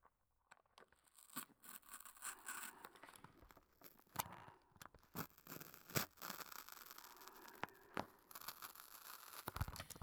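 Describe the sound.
Cutting sounds: many faint, crisp snips and crinkling clicks arrive at irregular intervals throughout, with no talk.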